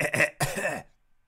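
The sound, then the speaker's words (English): A harsh, raspy cough comes in two short bursts, then silence. “Terrible cough. You should have that looked at.”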